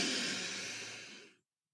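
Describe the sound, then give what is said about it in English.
A deep breath drawn in through the nose: a steady airy hiss, quiet and alone, that holds for over a second before cutting off. “Let's all collectively take a nice deep breath, okay? Let's inhale through your nose”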